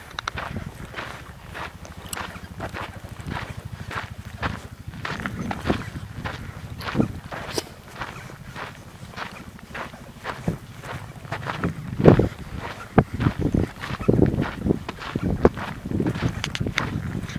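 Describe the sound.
Footsteps on an outdoor hiking trail, a long run of many steady, crunchy steps at a walking rhythm, fairly quiet and alone, with a few sharper, louder steps near the end.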